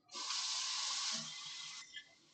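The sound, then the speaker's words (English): Water runs from a kitchen tap as hands are washed under it, a steady, bright rushing stream for nearly two seconds that then stops, followed by a brief splash. “Just need to wash my hands.”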